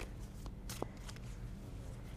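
Tarot reading cards being shuffled: faint, soft riffling and sliding card sounds with a few brief, sharper clicks, steady and quiet throughout.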